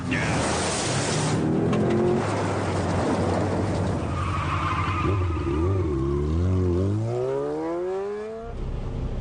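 A car's engine revs loudly as it pulls away with skidding tires, a continuous roar whose engine pitch wavers and climbs through the second half; no voices.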